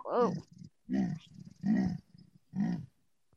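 Big cat cub making contact calls: four short, slightly husky calls with brief pauses between them, each a low, rough, moaning cry.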